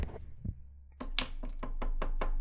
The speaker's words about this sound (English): I'm not sure if you can hear that. That's the sound of me knocking on wood.